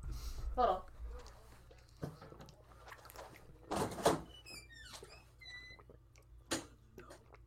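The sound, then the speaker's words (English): A door is opened very slowly, giving a few soft knocks and thumps along with thin, high creaking squeaks, while people talk quietly around it. “Opens the door very slowly, but entertaining for the viewers.”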